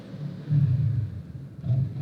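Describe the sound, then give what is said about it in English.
A motorcycle passes by with a low, rumbling engine drone that swells, eases off, then swells again toward the end, with no voices. “I'm just going to wait for that motorcycle pass. The Terminator just rode by.”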